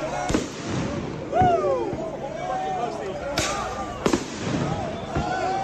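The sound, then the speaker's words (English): Flashbang grenades going off as police clear a pro-Palestinian protest camp: several sharp, loud bangs break through a backdrop of shouting and crowd voices. “they were shocked when all of a sudden the flashbang grenades went off”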